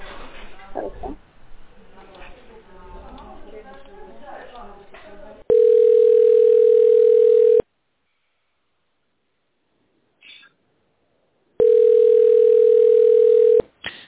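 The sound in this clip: Telephone line tones during a call transfer to a medical center department: after a stretch of talking, a steady mid-pitched beep sounds for about two seconds, then near silence, then a second identical two-second tone.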